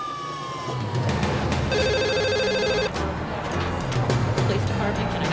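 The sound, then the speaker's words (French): A telephone rings as police receive a call, one bright burst of electronic ringing rising over a busy, noisy background that continues after the ring stops. “La police de Saint-Louis reçoit un appel lui signalant qu'une voiture a été détruite par une explosion au sud de la ville.”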